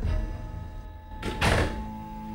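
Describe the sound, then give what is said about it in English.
A bedroom door shuts with a single solid thunk partway through, against a faint low background hum. “enters her room and closes the door.”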